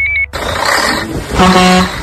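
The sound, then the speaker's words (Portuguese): A moving truck's engine roaring as it pulls away, a steady broad rumble that follows a brief high beep, with a deeper tonal blare near the end. “Opa, o caminhão da mudança tá quase saindo.”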